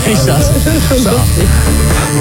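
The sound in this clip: A tattoo machine buzzes steadily as it inks a döner onto a Bavarian calf, its loud drone running under people talking.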